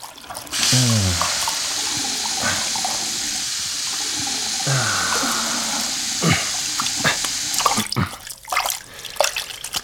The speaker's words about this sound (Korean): 자, 손 씻자